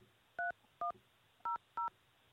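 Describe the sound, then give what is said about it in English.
Four short, faint dual-tone telephone keypad beeps enter a PIN on a call-in conference line. The beeps come in two pairs with a brief pause between them, and nothing else is heard. “Please enter your show or meeting number. Enter your 6-digit PIN number.”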